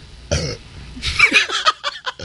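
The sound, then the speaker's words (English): A single short, low, rough burp bursts out, followed by a stretch of other vocal noises. “Teka, ba't ganun? So may burp, ha?”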